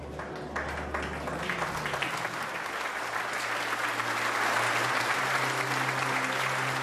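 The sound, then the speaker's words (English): Prisoners clap in a prison canteen, a dense, steady applause of many hands that carries on for several seconds and swells a little toward the end, with a low hum beneath it. “As the prisoners clap for him”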